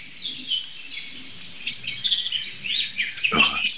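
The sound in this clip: A blackbird and a song thrush sing: bright, varied chirps and fluttering phrases in quick succession, with short pauses between bursts.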